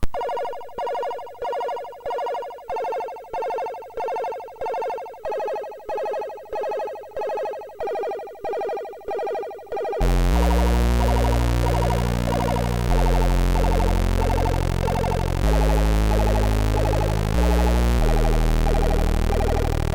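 Commodore 64 loading-screen music for a game's second level plays as 8-bit chiptune, opening with a steady series of repeated bright synth pulses, then switching to a full, loud arrangement with deep bass and a buzzing saw-wave lead.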